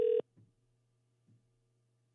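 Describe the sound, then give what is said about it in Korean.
A telephone ringing tone sounds on a call that goes unanswered: a short, steady electronic beep at the start and another at the very end, with near silence and a faint low hum between. “오 전화 안 받네요”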